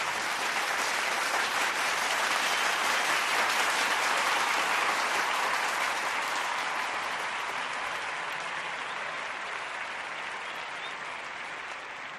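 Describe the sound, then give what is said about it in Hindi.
Prolonged audience applause after the opening greeting of a speech: a dense, even wash of clapping that holds steady for the whole stretch and eases slightly toward the end, with no voices. “करीब 2 minute तक लगातार तालियां बजती रहीं।”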